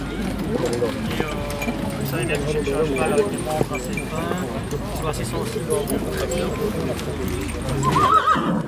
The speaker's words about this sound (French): Le cheval est un croisement d'un Ardennais avec un Franche-Montagne.